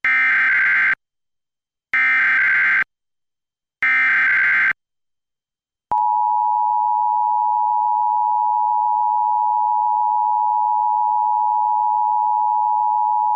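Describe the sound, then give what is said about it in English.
Emergency alert system test tone: three short, loud, buzzy data bursts separated by brief silences, then a long, steady, unbroken electronic attention tone holding one pitch to the end. “This is a test of the emergency alert system.”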